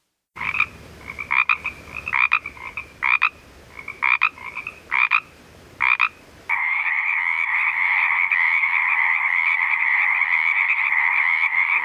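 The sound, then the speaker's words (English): A native Pacific tree frog calls in a series of short, repeated two-part croaks with brief gaps between them. A different frog then takes over with a loud, steady, unbroken trill that lasts to the end. “The first call is that of our native Pacific tree frog”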